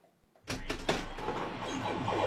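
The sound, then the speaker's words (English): Pinball machines whirring in the Empire arcade in Townsville: near silence, then a sudden mechanical clatter at about half a second that settles into a steady, busy whirring rumble. “When you step into the Empire Alticanade in Townsville, you're greeted by neon lights, the whirls and bells of pinball machines”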